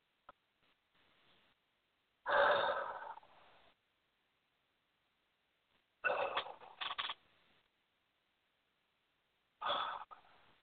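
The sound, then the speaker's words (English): Three deep breaths, each a breathy rush of air rising sharply and fading away, separated by stretches of silence; the breaths are fairly soft, and no one talks. “And just take three nice deep breaths.”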